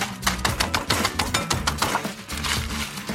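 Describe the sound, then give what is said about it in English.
Crisp crunching and crackling of about 20 butter crackers being crushed inside a sealed bag for a crab cake binder, a dense, continuous run of many sharp snaps with no talking. “I'm using about 20 butter crackers, and it's going to act as the glue to the crab cake. Seal it up, crush them.”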